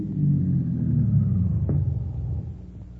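A car engine rumbles low and steady as the car pulls off onto a side road before a tire change, then the rumble eases and fades toward the end.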